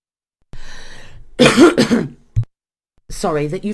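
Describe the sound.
Coughing: a few harsh, rapid coughs in a cluster, followed by one short cough after a pause. A person speaks before and after the coughs.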